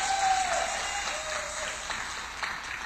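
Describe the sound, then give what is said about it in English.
A church audience applauds during a morning service. The clapping is fairly soft and diffuse and holds steady for a few seconds, with no talk over it. “So let's welcome in our listening audience this morning. Make some noise for them.”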